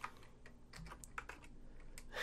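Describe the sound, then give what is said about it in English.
Typing on a computer keyboard: many quick, light key clicks in an uneven rhythm, faint and without talk, as someone hunts for a key. “I can't type this morning, apparently. I don't know. There it is. Couldn't find my colon.”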